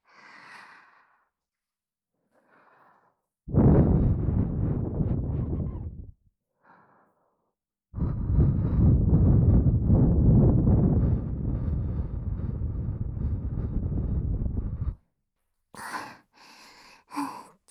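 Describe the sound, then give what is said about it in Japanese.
Heavy, out-of-breath breathing: two long, loud, rushing breaths separated by a short pause, with a few faint breaths before them and a brief voiced sound at the end. “息が切れちゃった。”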